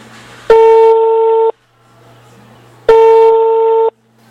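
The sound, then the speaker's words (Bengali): Telephone ringback tone on an outgoing call: two loud, steady one-second tones separated by a pause of more than a second, with a faint low hum between them. “Phone দেছো হয় আফা ring হইতে আছে”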